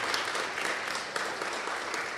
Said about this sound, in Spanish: Un aplauso, por favor, a Carmen.